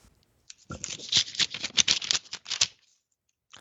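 A paper envelope is torn open: a fairly faint burst of crisp rustling and ripping crackles lasting about two seconds, with quiet before and after.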